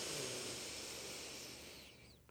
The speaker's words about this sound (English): just take a big breath together and then release that breath